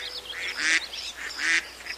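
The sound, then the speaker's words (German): Ducks calling on a park pond give a series of nasal, honking quacks. Two louder calls stand out among fainter, shorter ones. “Genau, hier bei den Enten. Na, was denkt ihr da drüben auf dem Teich?”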